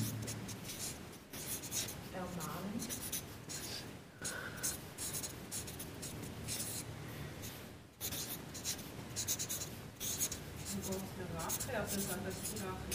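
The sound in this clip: A pen scratches steadily on paper as someone writes single words. The scratching is continuous and textured, with brief pauses, under quiet talking and whispering voices.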